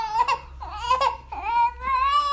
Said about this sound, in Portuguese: Ele tava chorando, agora deu uma segurada aqui.